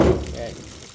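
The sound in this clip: Water pours over frozen beef bones in a restaurant sink as they are washed for pho broth, a steady splashing rush that starts loud and gradually eases, with a voice talking over it.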